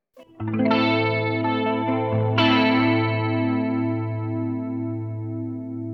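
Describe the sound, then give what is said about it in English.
An electric guitar chord played on both pickups rings out through a chorus pedal, with a shimmering, wavering sustain. It is strummed twice, and each strike is left to ring and slowly fade. “Yeah, and I'll just hit the same chord every time and let it ring, so we can hear exactly what it sounds like. I'm going to go on both pickups so I can get a little bit more sparkle.”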